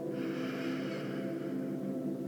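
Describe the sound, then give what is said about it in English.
A deep breath in and out during a guided meditation, heard alone as a steady, airy rush of breath that holds an even loudness throughout. “Deep breath in. Hold and let it go. Again, deep breath in.”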